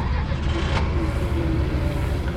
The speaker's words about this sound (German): Er fährt los.